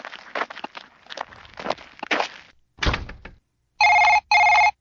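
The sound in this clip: A telephone rings in a video game, giving two short, bright electronic ring bursts at the end. Before the rings come a run of soft thumps and footstep-like taps.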